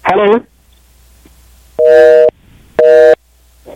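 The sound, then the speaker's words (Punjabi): A phone busy tone sounds after a dropped call: two even, steady tone bursts separated by short silences, preceded by a brief voice. “Call drop ਹੋ ਗਈ”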